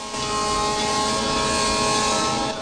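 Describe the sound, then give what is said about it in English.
A train horn blares in one long, steady blast over rumbling rail noise as a train speeds toward a DeLorean stopped on a level crossing. “A train rockets towards him. He leaps out. The train plows into the car, smashing it to pieces.”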